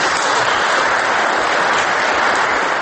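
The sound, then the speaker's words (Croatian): Applause from an audience at a political speech: dense, steady clapping from many hands, loud and even throughout, with no voices. “Aplauz bez glasa protiv ili prigovora”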